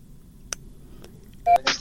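Telephone dialing tones ring out while a phone call is placed. A couple of faint short beeps come first, then two louder, sustained tones close together near the end.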